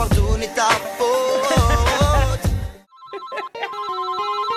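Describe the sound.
A telephone rings unanswered, sounding as repeated short electronic ringtone notes that start right after a stretch of loud music cuts off.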